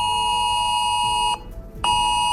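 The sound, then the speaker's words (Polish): British emergency alert alarm blaring on mobile phones: a loud, harsh, steady electronic tone rich in harmonics breaks off for about half a second and then resumes at full strength. “Tak brzmi brytyjski alarm, który w jednej chwili może odezwać się na milionach telefonów.”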